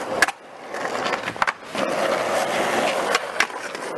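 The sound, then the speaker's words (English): Skateboard wheels roll with a steady, gritty rumble, broken by several sharp wooden cracks and clacks from tricks. No voices are heard. “skateboarding is a very visual activity for its participants and spectators. But the rhythm and the noises it can create are also important to the sport and to some artists, musical.”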